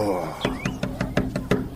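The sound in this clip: Knocking on the door of a guest house, a hujra: a quick, even run of several raps that follows a brief voice.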